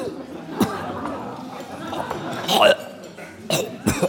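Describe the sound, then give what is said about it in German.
A man waking on a corner bench after a meal, spitting out seasoning poured into his mouth and coughing. A few sharp, harsh bursts of sputtering and coughs rise over a murmur of voices. “Er erwacht, spuckt aus und hustet, alles lacht.”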